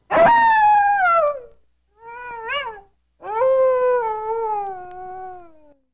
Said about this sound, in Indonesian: Benar, itu adalah suara serigala hutan.